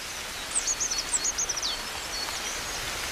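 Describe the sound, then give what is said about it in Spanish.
A coal tit sings in the cold of midwinter, giving a brief run of thin, high, faint notes lasting about a second over a steady soft hiss, after which only the background noise remains. “En pleno invierno, con el frío, un carbonero garrapinos está cantando como anticipándose a la primavera.”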